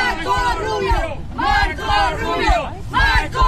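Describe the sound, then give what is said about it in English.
Cuban Americans in Miami cheering for Marco Rubio: a crowd gives several loud, chanted shouts in rhythmic bursts, with babble of voices between them. “Some Cuban Americans in Miami cheered him.”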